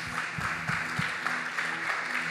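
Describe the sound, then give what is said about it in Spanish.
Applause from a church audience: a steady, dense patter of many hands clapping together, holding at an even level for the whole short stretch without voices over it. “¿Podemos dar un aplauso a los muchachos de multimedia?”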